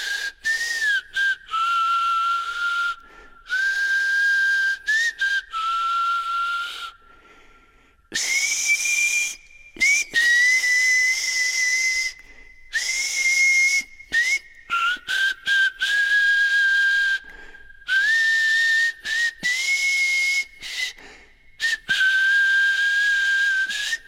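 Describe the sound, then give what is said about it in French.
People whistling a tune together, clear sustained melodic phrases that rise and fall in pitch, broken by short pauses and continuing through to the end, with no talking. “Allez, on siffle.”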